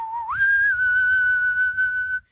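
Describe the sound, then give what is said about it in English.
A person whistles one sustained clear note that starts lower, slides quickly upward, then holds steady at a higher pitch for about two seconds before stopping. “Should I whistle?”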